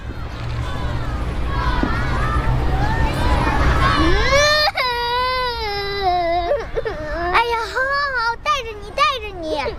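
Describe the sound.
A child cries loudly in high, wavering wails and sobbing bursts after a few seconds of rough, noisy commotion. The cries rise and fall in pitch with short catches between them.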